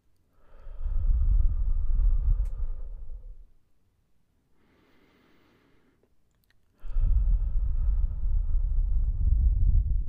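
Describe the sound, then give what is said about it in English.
Deep, slow breaths taken during a stretching routine: two long, loud, breathy swells separated by a quiet gap with only a faint breath in the middle. “let's take some deep breaths.”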